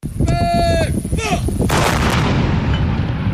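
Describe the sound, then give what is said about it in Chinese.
Howitzer artillery fires during a night live-fire drill. High whistling tones come first, then a single loud, heavy boom that fades into a long rumbling tail. “榴弹炮分队发射照明弹照亮目标区域，各班组迅速选用适配弹种对不同目标开火，将目标全部摧毁。”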